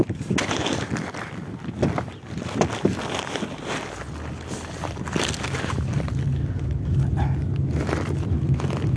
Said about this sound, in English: My neighbor was driving by, and I'm literally on the back of his truck right now.